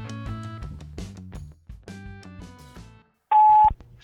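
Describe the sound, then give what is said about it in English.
Voicemail playback: a run of short electronic tones, then a single loud, sharp, high beep that cuts in after a brief silence. “I'm going to play you one of the voicemails because it kind of is a nice segue into it.”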